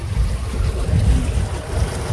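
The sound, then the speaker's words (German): Low, steady engine rumble and water wash aboard a river ferry crossing the Weser near Bodenwerder, with gusty wind noise over the deck throughout and no talking. “Fähre fahren macht Spaß. Ich fahre hier jetzt auch schon zum zweiten Mal.”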